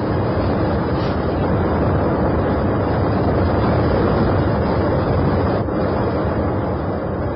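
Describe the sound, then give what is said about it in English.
The steady, loud engine drone of an airplane in flight fills the cabin with a dense, unbroken rumble that stays even throughout, with no voices. “Ladies and gentlemen, if you look below you on the right-hand side of the aircraft, you can see the outskirts of the city of Munich approaching. We will land in exactly 15 minutes.”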